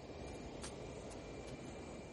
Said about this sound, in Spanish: Un avión lo sobrevuela.